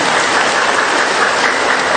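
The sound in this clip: Audience applause: a dense, steady wash of many hands clapping that holds at an even loudness throughout, with no voices heard.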